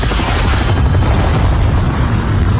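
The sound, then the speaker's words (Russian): A loud explosion as a rocket strikes the side of a helicopter, heard as a sustained, heavy, low-weighted roar and rumble that stays dense and steady throughout, with no voices. “Ракета с оглушительным визгом врезалась в борт вертолета, и новый взрыв потряс окрестности.”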